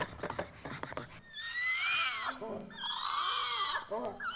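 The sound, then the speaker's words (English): Spider monkeys chattering excitedly: a few short, rough calls give way to two long bursts of high, wavering, whistle-like cries that overlap and slide up and down in pitch, with softer grunting calls beneath. “this drill, and these spider monkeys with their excited gossip”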